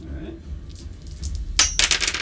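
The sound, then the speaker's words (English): Three six-sided dice roll on a table, giving a sudden burst of hard, bright clattering clicks in the last second after quieter low rumbling. “Roll 3d6. Okay. Chaos dice. Let's see if he suffers an injury.”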